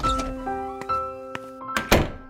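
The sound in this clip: A bedroom door pushed open, heard as a few dull thunks and knocks over a steady background of sustained musical tones.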